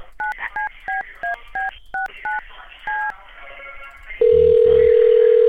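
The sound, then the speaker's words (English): Touch-tone telephone number being dialed: eight short two-tone beeps in quick succession, then a steady, loud tone that carries on to the end. “Okay, bear with me one second. Let me dial up Mr. O'Tyrone.”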